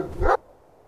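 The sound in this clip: A dog gives a single short, fairly loud bark, followed by near silence.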